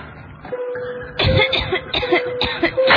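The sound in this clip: Harsh coughing from a mother who has been ill for nearly three months with a persistent cough and weakened immunity; a few loud, rough bursts crowd the second half over a faint steady hum.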